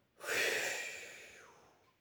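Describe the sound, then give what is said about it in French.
A single breath is blown out in one soft, airy puff. The hiss swells quickly, then thins and fades over about a second and a half. “Il prend dans sa poche un peu de poudre magique et souffle”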